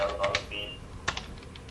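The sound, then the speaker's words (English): A short word is typed on a computer keyboard as a few quiet, sharp key clicks at uneven spacing, with a person talking alongside. “So we'll type in good.”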